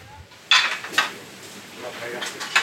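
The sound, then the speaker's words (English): A dish being set down while food is plated: a few hard clattering knocks of crockery over a low, steady background. “Okay, so once it's deep and done, and it's very nice color, right? We're going to place our dish.”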